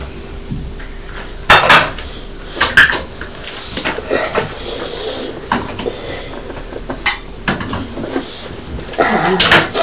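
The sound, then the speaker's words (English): A spoon scrapes and clinks against a dish while pasta is dug out, giving many irregular clatters and scraping strokes of varying loudness throughout. “Need a spoon to try and get the pasta out of the dish.”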